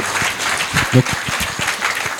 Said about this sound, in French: Guillaume, je crois qu'il ne nous reste plus qu'à te remercier chaleureusement. Merci à vous. On peut applaudir Guillaume Stahl.